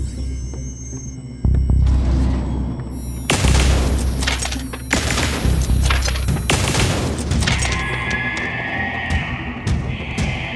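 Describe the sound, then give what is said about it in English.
A weapon fires shots at a big, toothed creature in a dark corridor. A few heavy, booming blasts cut through a low, throbbing hum, which then settles into a quieter steady drone. “The creature takes three hits from my weapon, but that only makes it pause.”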